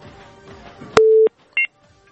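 A telephone tone sounds after a call is disconnected: one steady mid-pitched beep, then a shorter, higher beep after a brief gap, both loud against a quiet, faint background.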